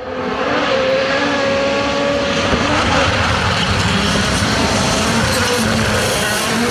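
A rally car at the Acropolis Rally taking a corner at full throttle, giving a loud, sustained engine roar with wavering tonal whines that stays at a constant level for several seconds, with no voices.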